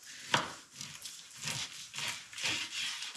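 A sharp kitchen knife with a thin handle cutting through food: a few crisp cutting strokes, each a short scraping burst, separated by brief pauses at a moderate level.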